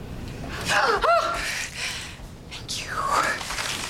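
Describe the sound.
A woman breathes agitatedly in a few sharp, breathy gasps with voiced, whimpering edges, the loudest bursts coming near the start and again toward the end.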